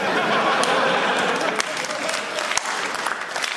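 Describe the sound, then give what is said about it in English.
Crowd applause at a live comedy show, a dense, even patter of many hands with a few sharper, louder claps standing out, and the occasional chuckle in the crowd. “Oh, look, it's tiny Andrew Collins doing a slow hand clap.”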